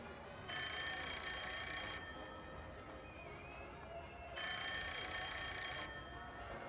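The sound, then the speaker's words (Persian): A private-line telephone bell rings in a hotel: two long, bright, metallic trilling rings of about a second and a half each, separated by a pause, loud over a steady low hum. “اجازه است جواب بدم؟ خط خصوصی من.”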